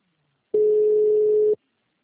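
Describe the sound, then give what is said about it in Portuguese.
One-second telephone beep from a call that fails to connect, a single steady mid-pitched tone starting and stopping sharply within otherwise silent air. “Não foi possível completar a sua ligação.”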